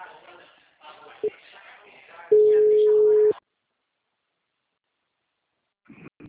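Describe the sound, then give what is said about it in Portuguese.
Telephone busy tone after a dropped call: people talk, a brief tone blip sounds amid the voices, then one loud steady tone lasts about a second before silence, with faint speech returning at the end. “Oi, amigo, a ligação caiu. Caiu.”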